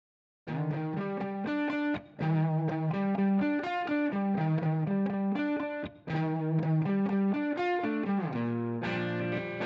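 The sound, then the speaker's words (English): Electric guitars from a stripped-down song demo play a jazzy, distorted riff with chorus-like effects in steady repeated phrases. The playing breaks briefly twice, then lands on lower sustained chords at the end. “I had originally made a demo of it that was really just me and a couple of electrics and some background vocals. It sounded like this.”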